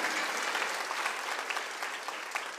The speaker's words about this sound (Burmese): သူဖခင်ကိုလက်ခုပ်တီးလက်ချီးမွမ်းကြရအောင်